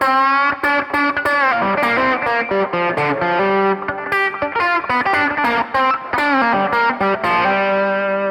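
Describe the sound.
Distorted electric guitar played through the bass pickup, a phrase of picked notes and ringing chords with a thick, warm, sustained tone and brief gaps between attacks, played alone.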